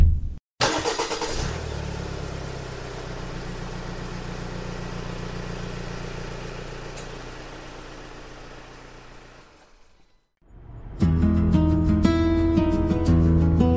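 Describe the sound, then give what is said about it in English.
An SUV engine sets off and drives, giving a steady low drone for about ten seconds before cutting out. A brighter tonal sound follows after a brief gap. “We walk up the office stairs and reach Simona's SUV, which is obviously much newer and more elegant than mine. And we climb aboard and set off.”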